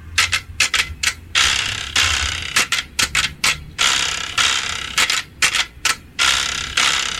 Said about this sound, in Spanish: Así suena la carraca.